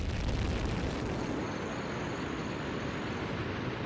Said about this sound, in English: Liftoff of the mighty Delta IV heavy rocket with NASA's Parker Solar Probe.